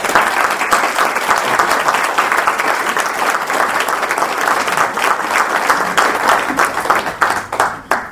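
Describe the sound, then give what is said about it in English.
Audience applause greets an author taking the stage at a book event: dense, steady clapping from many hands holds at full strength for most of the time, then thins and becomes more uneven in the last second or so. “So please join me in giving a warm welcome to Daniel Paul.”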